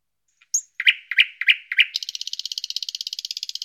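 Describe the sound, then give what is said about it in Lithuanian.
A nightingale sings while perched on the roof of a small house. A few separate, bright chirping notes are followed by a rapid, even trill of many high pulses. The song is clear and stands alone. “Kartą ant namelio stogo nutupė lakštutė.”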